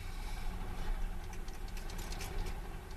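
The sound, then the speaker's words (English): Steady engine rumble from a 1901 car primed with petrol at a commemoration rally, a continuous idling drone with a rough, knocking texture and no clear start or stop. “I have to prime the engine with petrol. What is that? Just flood your carburetor”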